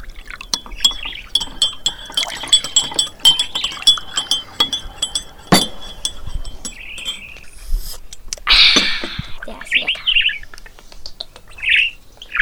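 A pet bird chirps and squawks as it is about to be fed fresh seeds, with light glassy clinks between its short, scattered calls, some of them loud.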